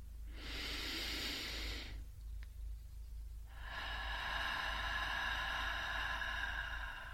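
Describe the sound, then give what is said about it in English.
A slow calming breath, drawn in through the nose and let out through the mouth: two steady airy hisses separated by a short pause, the second longer than the first, with no talking. “breathe in through your nose and you breathe out through your mouth”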